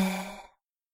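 A deep breath out during a guided breathing exercise: one soft, sighing exhale that starts fairly full and fades away within about half a second, then silence.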